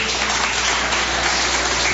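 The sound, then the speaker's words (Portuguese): A church audience clapping along during a worship service, a dense, steady wash of hand claps that holds at an even level for the whole stretch, with no voices standing out. “Pode bater palma, pode dar glória a Deus.”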